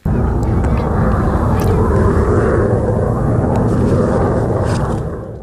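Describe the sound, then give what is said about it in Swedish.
Steady, loud roar of F-35A fighter jets arriving in Finland, a dense, unbroken jet-engine rumble that holds for several seconds and then tapers off at the very end. “Så där lät det när de första nya stridsflygplanen av typ F-35A anlände till Finland idag.”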